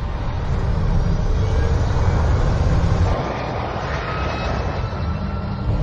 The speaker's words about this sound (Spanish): Lion Inter 610, autorizado para el despegue. Pista 25 izquierda.